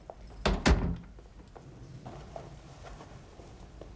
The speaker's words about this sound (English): lets herself in and closes the door